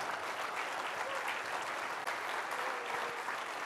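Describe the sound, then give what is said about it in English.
Church audience applauding a couple honoured for long service in a mission ministry: a dense, sustained wash of clapping that stays loud and even throughout. “Let's give them a big round of applause”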